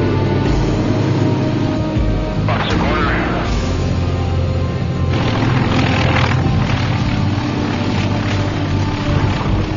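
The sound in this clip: Steady engine drone of a small aircraft landing on runway 33, touching down nose high and tail down, a loud continuous rumble with a broad hiss that swells briefly around the middle and again later.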